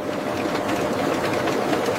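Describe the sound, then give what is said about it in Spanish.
Spinning mill machines with thousands of spindles turning and drafting rollers stretching roving give a loud, steady mechanical whir and rattle that holds unbroken throughout. “Miles de usos girando simultáneamente. Aquí nace el hilo. Rodillos a diferente velocidad estiran la mecha 20 veces más delgada sin romperla.”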